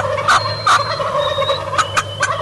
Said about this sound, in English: And there's the reaction to calling to turkeys on the roost.